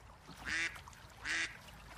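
A duck quacks twice, each call a short, loud, nasal honk. The two calls are spaced under a second apart over faint background noise.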